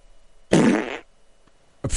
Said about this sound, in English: Hairy truck driver fart.